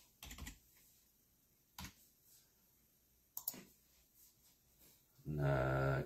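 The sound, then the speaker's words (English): Faint keyboard taps on a computer keyboard, a few sparse, isolated clicks spread apart over quiet background. “Let me type that in.”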